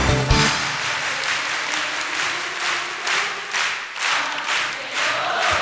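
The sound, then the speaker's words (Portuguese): A church audience claps in praise of Jesus, with sustained, loud applause that pulses in a steady rhythm from start to finish. “Palmas pra Jesus. Palmas pra Jesus. Palmas pro Senhor. Você, palma.”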